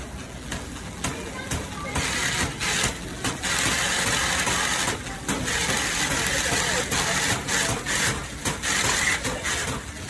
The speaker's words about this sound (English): He's got a shopping cart with a bum wheel, and it's making a weird noise.